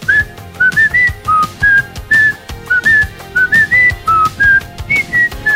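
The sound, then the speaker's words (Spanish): A person whistles a tune in many short, clear, bright notes with a bouncy, steady rhythm, the melody stepping up and down over faint low background sound. “Cuando yo te diga, vos lo pones y yo te silbo algo para que el Brick lo escuche.”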